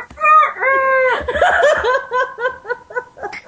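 Hens clucking and a rooster crowing, played as a sound effect: loud, nasal, drawn-out squawks at the start give way to a dense burst of calls and then many short, repeated clucks.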